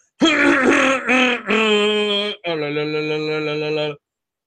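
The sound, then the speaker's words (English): Throat clearing before a performance: three short, voiced, grunting bursts followed by a longer, steadier, lower groan, loud and alone without speech. “I just usually got to clear the throat.”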